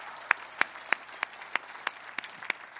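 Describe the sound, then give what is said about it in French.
A church audience claps in steady unison, nine sharp, evenly spaced claps over a faint wash of scattered applause, fairly quiet overall. “Est-ce qu'on pourrait acclamer ce que Jésus fait, ce que Dieu fait à travers son Église?”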